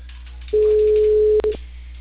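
A telephone ringback tone sounds while a call is placed to a customer in Peru: one long, steady, mid-pitched tone, then a brief second beep, with a low line hum underneath and no talking.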